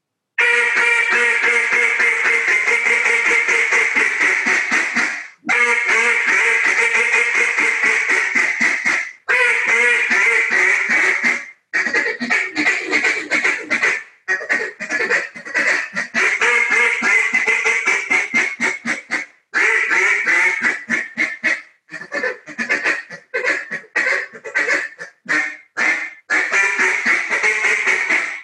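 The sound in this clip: A Small Talk duck call is blown in a long run of loud, rapid, reedy quacking notes with a wide, full tone. The notes come in several sustained bursts separated by brief pauses, with no talk.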